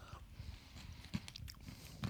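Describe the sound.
Faint chewing and crunching come from someone tasting stirred vanilla yogurt with crunchy balls. A few crisp bites break through soft, irregular mouth sounds.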